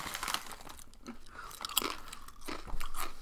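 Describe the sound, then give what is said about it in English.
Loud, crisp crunching of roast turkey and stuffing flavored potato chips being chewed, a dense run of crackly bites and chews filling the whole moment with no voices. “And what is this called? Roast turkey and stuffing potato chips? Yes. Yeah. America, adopt this immediately.”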